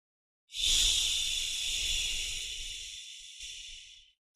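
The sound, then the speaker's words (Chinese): A slow, steady exhale voiced as a long hissing 'xi' sound in a breathing exercise. The breathy sibilant hiss lasts several seconds and gradually fades at the end. “呼的时候要发吸的音。 哎，就是缓慢的呼气。”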